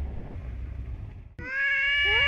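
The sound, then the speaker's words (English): A cat on an island off Japan gives a long, clear, tonal meow with rich harmonics in the second half, after a stretch of rough, noisy background. “There were more cats than we could count on an island off Japan.”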